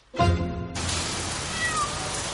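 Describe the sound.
A cat on the balcony of an attic flat gives a single clear meow, followed by a steady hiss of rain that continues to the end.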